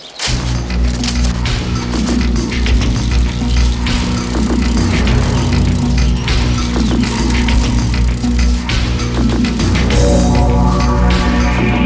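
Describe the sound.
Loud car engine rumble with rattling as a vehicle pulls away, steady and dense for the whole stretch with no voices.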